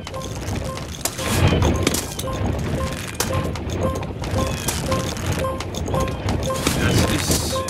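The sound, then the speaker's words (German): Many boulders rolling fast in a video game make a continuous loud rumbling clatter with heavy low rumble and scattered cracking hits, while a short pair of electronic tones repeats at a steady rhythm throughout. “Das sind ganz viele Boulders. Boulders, ja. Und die bewegen sich ganz, ganz schnell.”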